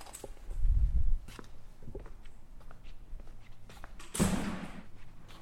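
A door inside a campus library building opened by hand without a badge scan: a low rumbling thud early on, then a louder rushing, clattering burst, with scattered light clicks and faint steady background noise throughout.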